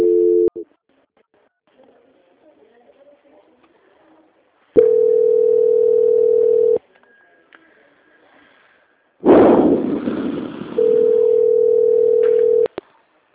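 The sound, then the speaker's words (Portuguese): Telephone tones during a call transfer: a short beep, then two long, steady, low electronic tones separated by a quiet gap with faint murmuring, and a harsh burst of noise just before the final tone. “Só um momento que a pessoa vai atender o senhor, seu Jorge. Não desliga, tá? Tá bom. Transferência.”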